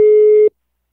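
A telephone busy signal sounds when placing a call: one steady, mid-pitched tone burst lasting about half a second, then it cuts off abruptly into silence.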